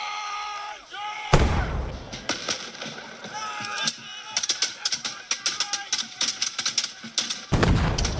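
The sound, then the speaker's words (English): Musket shots ring out at a battle reenactment on Lexington Green between British regulars and Minutemen. Two loud, sharp cracks land early and near the end, with a run of quick, sharp clicks and rattles between them. “Suddenly, the crack of a musket shot reverberates across the Lexington Green.”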